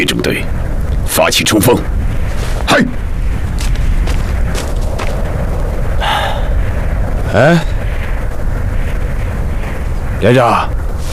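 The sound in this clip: Artillery shells burst during an enemy bombardment on a trench line, making a dense, continuous booming rumble with several sharper blasts standing out. Voices come through at moments.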